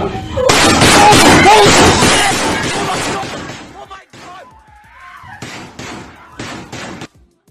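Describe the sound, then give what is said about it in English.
Gunfire from audio of the Uvalde shooting played in court opens with a loud, dense burst of rapid shots. After a quieter stretch with a voice, several more short, sharp bursts follow. “The shots in Uvalde.”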